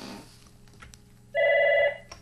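A telephone ringing for an incoming call: one short, clear electronic ring that is loud and steady against a quiet background.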